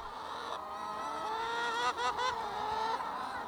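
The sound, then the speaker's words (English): A large flock of farm chickens rushing out to peck at lettuce: many overlapping squawks and honking calls rise over a soft background bustle. “That is the sound of 1,000 happy chickens. They're rushing out to peck away at lettuce and tussle over berries.”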